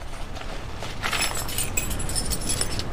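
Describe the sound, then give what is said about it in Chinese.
Keys jangle lightly, a faint metallic jingle with a few soft clinks over a steady background hiss. “你有钥匙吗？ 哦，有。”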